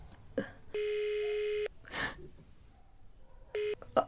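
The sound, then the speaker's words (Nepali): Telephone tone heard while placing a call: a steady electronic tone plays for nearly a second, then after a quiet gap a second, much shorter tone, over faint low background noise. “आस्था दिदीले number पठाइदिनु भएछ अब उत्तम दाईलाई call गर्नु पऱ्यो”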